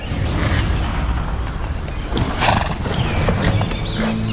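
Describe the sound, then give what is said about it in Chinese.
Horse hooves clip-clop steadily while a horse is ridden, a dense run of many hoofbeats that stays loud and unbroken through the whole stretch. “你不是不爱骑马吗？”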